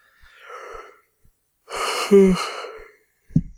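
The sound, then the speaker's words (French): A person yawns, starting with a soft breathy inhale, then a longer, louder airy breath with a brief voiced groan in the middle, ending with a short low thump. “je suis en train de bailler pour de vrai”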